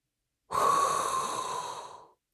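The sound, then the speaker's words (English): A single deep inhaled breath, one long, airy rush of breath noise lasting well over a second, strongest at its start and slowly fading, heard alone with no talk. “there is now only one thing left to do, and that is inhale a hot breath”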